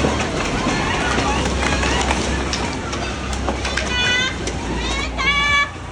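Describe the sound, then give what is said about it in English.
People shout as they run out of buildings shaking in a magnitude 7.5 earthquake in western Japan. The voices form a dense, continuous din, with a few sharp, high cries standing out near the end. “That's the sound of people shouting as they ran out of shaking buildings in the afternoon local time.”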